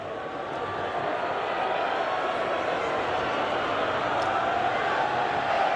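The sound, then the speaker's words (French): Stadium crowd noise as fans do a Mexican wave near the end of a match, a dense, continuous roar that holds steady and loud throughout. “Mais pas le public qui en redemande. On est reparti pour des tours de hola.”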